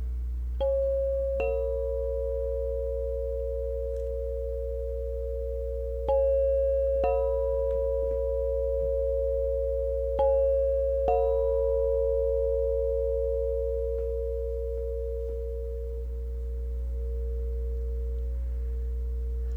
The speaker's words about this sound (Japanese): フルムーンの音差を聞かせていただきたいと思います。